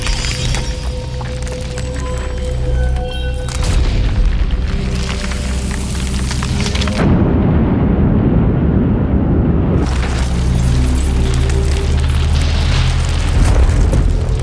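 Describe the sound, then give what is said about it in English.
Deep, continuous rumbling booms and crashes from the explosion effects of Superman the movie, remixed in a 2000 restoration, as the planet Krypton falls apart. The sound stays loud throughout, with a heavy low surge in the middle. “a new sound design and sound edit pass was done during a restoration effort of Superman the movie back in the year 2000, and it's completely audible in this theatrical release that's available digitally today. You'll hear a lot of that work here as Krypton starts falling apart.”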